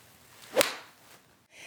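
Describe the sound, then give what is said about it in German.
A golf club whips through a single swing and strikes a ball on a driving range: one brief, sharp swish-crack that stands alone against a quiet background. “So, ich würde sagen, die Driving Range, die lassen wir jetzt hinter uns. Ich darf nochmal schlagen, ganz schnell.”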